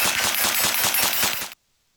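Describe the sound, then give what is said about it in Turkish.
A compact machine gun with a 900–1000 rounds-per-minute rate of fire fires one loud, rapid burst of evenly spaced shots that stops abruptly, followed by near silence. “Dakikada 900 ila 1000 mermi atış hızına ulaşabilen sistem saniyede 396 metre mermi çıkış hızına sahip.”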